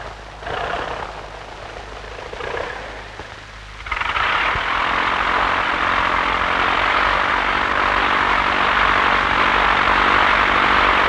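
An airplane taking off from Sentani airfield by Lake Sentani. A few seconds of softer engine noise give way at about four seconds to a loud, steady engine roar that holds to the end.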